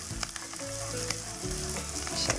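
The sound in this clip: Onions fry in a pan with a continuous, bright sizzle and crackle, even in level and heard alone without talk.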